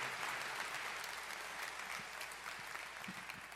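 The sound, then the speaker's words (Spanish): An audience applauding during a church service: dense, steady clapping from many hands that stays loud throughout and eases slightly toward the end, with no talk. “¿Por qué no me acompañas a darle un aplauso y gracias a Dios por la vida de Martín?”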